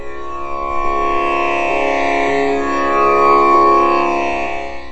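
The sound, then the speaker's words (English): A tanpura drone from a CD recording, used as the Carnatic music practice drone on the basic notes sa and pa, sustains a steady, rich, buzzing tone with shimmering overtones throughout, swelling gently in loudness toward the middle. “So what you hear is a CD version of the tanpura.”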